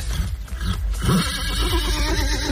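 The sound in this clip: A woman imitates a mare neighing, giving a loud, shaky whinny with no other speech.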